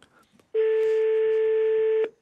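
A telephone line tone, heard while calling numbers that do not answer: one steady, clear beep lasting about one and a half seconds, alone after faint background noise.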